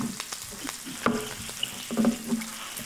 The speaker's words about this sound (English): I, am adding in peppers because I figure they'll take not as long as potatoes, but probably longer than anything else. All right, so I'm going to keep cooking that.